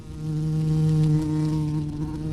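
Bees buzz around a hive, a steady, droning hum that holds at an even pitch and loudness throughout with no voices.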